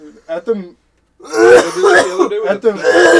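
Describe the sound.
A person clears their throat harshly after inhaling a piece of rice into the back of the throat. A few short voiced sounds come first, then a loud run of rasping, gravelly clears.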